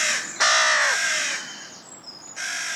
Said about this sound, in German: Lautes Krähenkrächzen ertönt.